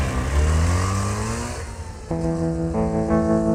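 A car engine roars in a side street after the car is broken into, its pitch climbing and then falling away before it picks up again in stepped surges, at moderate loudness.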